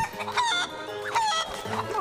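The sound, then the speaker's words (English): Chickens clucking after falling into a tank, a busy stream of short overlapping harmonic calls, fairly loud and steady, with no talk. “Yep, the chickens are in the tank. I repeat, the chickens are in the tank.”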